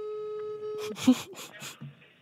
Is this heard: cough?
no